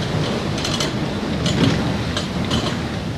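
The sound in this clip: Old flour mill machinery runs in western France, its grain-grinding mills making a loud, steady mechanical roar broken by recurring clattering bursts.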